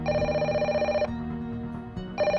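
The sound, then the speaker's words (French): A telephone rings with an incoming call reaching the answering machine of a school and a home. Two bursts of steady electronic ringing are separated by a short, quieter gap, with no talk. “Il y a un appel téléphonique qui arrive sur le répondeur de l'école de Conches”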